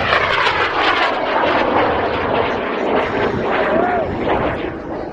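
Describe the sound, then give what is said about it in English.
A WAC Corporal rocket ignites and lifts off with a loud, continuous roaring rush that stays dense and powerful and eases slightly toward the end. “9, 8, 7, 6, 5, 4, 3, 2, 1, launch. We have ignition and liftoff.”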